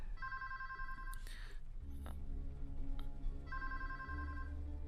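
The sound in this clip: A telephone rings in two bursts separated by a pause. The electronic warble is quite faint over a low background hum.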